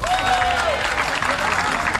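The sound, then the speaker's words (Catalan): Audience applause for a music group, a dense, steady wash of clapping that stays loud and even from start to finish. “Un aplaudiment pel Sense Sal!”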